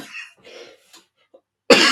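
A single loud, abrupt cough bursts out near the end, following a few faint, soft breathy sounds and near silence.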